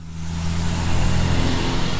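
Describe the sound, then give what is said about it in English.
Heavy truck engine rumble from log trucks hauling long logs into a wood pellet plant on the edge of Ahoskie, a steady, loud, broad drone with deep low tones throughout and no voices. “Trucks carrying long logs have been streaming into this wood pellet plant on the edge of a Ahoskie all day long”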